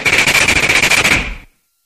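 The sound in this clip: A Thompson submachine gun fires one rapid, loud burst in an ambush. Many evenly spaced shots hammer out for about a second and a half, then cut off abruptly into silence.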